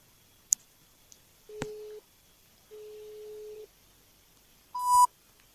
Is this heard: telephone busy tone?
yes